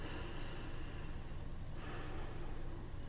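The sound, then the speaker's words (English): A deep breath drawn and released, a steady breathy hiss lasting the whole time that shifts in tone partway through. “Let's get ready for our story by taking a nice, deep breath to prepare ourselves.”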